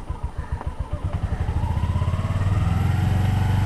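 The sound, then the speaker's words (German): Motorcycle engine running during a riding lesson as the clutch is eased out and the throttle slowly opened; rapid, steady chugging pulses grow louder and denser midway, then hold at a fuller, even beat, with no talk. “So now it's running. Yes. Now, slowly release your clutch and slowly, slowly open the gas.”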